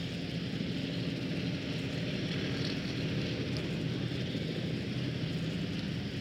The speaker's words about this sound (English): There are three helicopters standing by. Perhaps you can hear the sound of the propellers in the background.